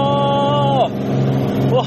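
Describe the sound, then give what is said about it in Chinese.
Light airplane engine of a Cirrus SR20 at takeoff, a steady droning hum with strong tonal harmonics, heard under voices. “我们今天坐的可是空中宝马希瑞 SR20， 这个飞机还挺精致的。坐稳扶好，咱们起飞喽！”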